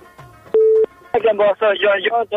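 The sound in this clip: A phone call connecting to a radio call-in show: a short, steady beep tone, then voices speaking back and forth over the telephone line.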